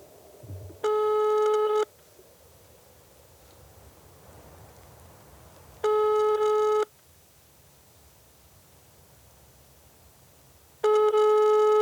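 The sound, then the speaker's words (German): Ringback tone of an outgoing telephone call: three steady, fairly loud one-second tone bursts spaced about five seconds apart, with faint hiss between them. “Und zwar rufen wir heute Marius an.”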